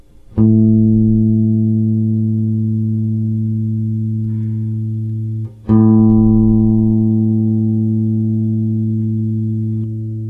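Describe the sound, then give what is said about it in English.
A guitar sounds an open A note for tuning: two plucks, each ringing as a steady, buzzy tone with a strong fundamental and many overtones that slowly fade. No voices are heard. “Before we get started, let's tune up. Here's an open A.”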